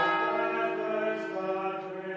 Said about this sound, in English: but in Cistercian College, as well as the school bell, they have the prayer bell from the monastery next door.